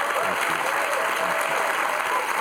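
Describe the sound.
Studio audience applause welcomes a guest to a television talk show, a dense, steady clapping that holds at an even, fairly loud level from start to finish.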